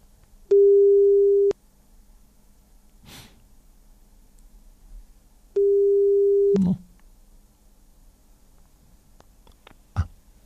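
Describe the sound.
Ringback tone of an outgoing telephone call placed to a listener: two long, steady, mid-pitched ringing tones separated by a quiet gap, with soft breathing or snorting noises in between and a brief click near the end.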